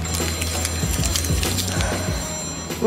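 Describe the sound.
A telephone rings from an unknown caller, giving a steady, repeating electronic trill at moderate loudness that swells into a brief louder burst at the very end.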